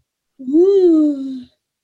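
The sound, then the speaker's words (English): A single drawn-out human yawn, voiced and about a second long. Its pitch rises briefly and then slides slowly downward before it stops. “I'm yawning.”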